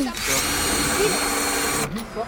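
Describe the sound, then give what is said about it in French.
A power drill whirs steadily as a screw is backed out so a new hole can be made, running continuously with a voice talking over it. “Juste, on a besoin de la dévisser et refaire un trou.”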